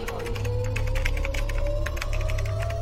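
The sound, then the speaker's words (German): Letters are typed into a chat on a computer keyboard, with soft rapid key clicks running throughout under a steady tone that slowly rises in pitch. “Die Hände an die Tastatur. Das gilt für alle. Und jetzt ein F, R, Z, G, B, L in den Chat schreiben.”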